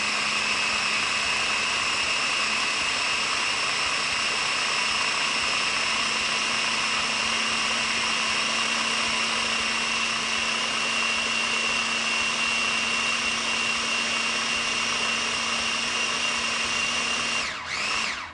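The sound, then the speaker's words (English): A blender whirs a red bell pepper dip with onion powder until smooth, giving a loud, continuous high-pitched motor whine with a low hum beneath that holds steady and then briefly wavers at the very end. “I'm gonna stick the top on, give this a nice blend, nice and smooth.”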